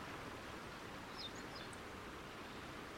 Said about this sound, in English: enjoying the calming sounds of the nature, the forest birds and the waterfall